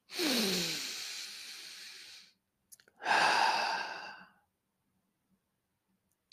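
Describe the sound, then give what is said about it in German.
Two long, airy breaths make up a deep-breathing exercise, drawn in through the nose and released through the mouth. Each breath swells and fades, with a quiet pause between them and faint small clicks afterward. “atme siebenmal tief durch die Nase ein und durch den Mund aus.”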